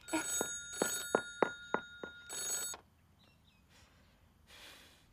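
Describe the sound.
Electronic telephone ringing, a rapid series of bright, buzzy tonal bursts and short pulses for nearly three seconds before cutting to near silence, with no talk.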